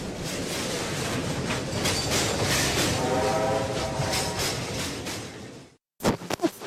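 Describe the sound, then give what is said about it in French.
Train rolling along the rails, a dense steady rumble and clatter lasting nearly six seconds with a faint horn-like tone midway, then a sudden brief silence followed by a few sharp percussive hits. “Le prochain train en direction de la tribu 106.9 à Saint-Nazaire part tout de suite.”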